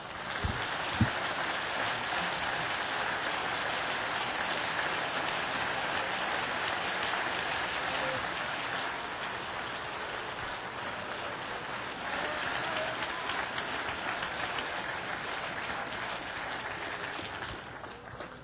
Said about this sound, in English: Let's clap again for a moment.